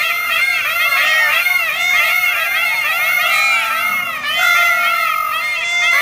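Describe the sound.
Loud, high screeching cries from peacock-like birds, many wailing calls overlapping without pause into one continuous, piercing chorus.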